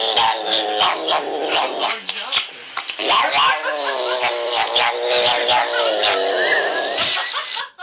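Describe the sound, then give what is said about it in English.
A cat yowls while being brushed or vacuumed, making long, drawn-out, wavering cries with sharp pitch bends and brief breaks. The yowling is loud and nearly continuous over a rough, noisy background. “That is a cat, and he's being, like, brushed or vacuumed or something, and he's just like, ah.”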